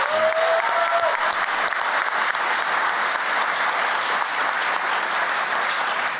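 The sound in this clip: Steady applause from an audience welcoming a panelist to a panel discussion, dense and even from start to finish with no voices rising above it.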